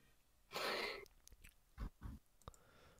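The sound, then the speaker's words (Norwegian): Someone drinks: a breathy slurping sip followed by a couple of low, soft gulps, faint and without talk. “Jeg drikker noe, så jeg kan ikke snakke.”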